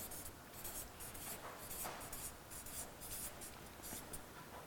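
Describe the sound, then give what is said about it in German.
Faint scratchy strokes of writing on a board as a point is written up: many quick rubbing strokes in a steady, uneven rhythm, quiet and without voices. “Ich schreibe hierhin als dritten Punkt Ergebenheit.”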